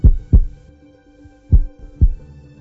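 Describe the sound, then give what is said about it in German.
A heartbeat thumps in two low, deep double beats, each pair a quick lub-dub separated by a pause, fairly loud over a faint steady hum. “Ihr Herz, das so viele Jahre geschlagen hat, wird aufhören zu schlagen.”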